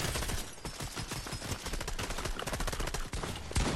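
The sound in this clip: Video game gunfire from above and behind during a ranked duo match: dense, rapid shots crackle without pause, a loud and continuous fusillade of overlapping bursts throughout.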